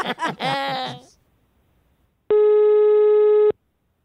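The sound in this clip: A telephone rings on an outgoing call with one loud, steady electronic tone lasting just over a second. It comes after a brief burst of voices.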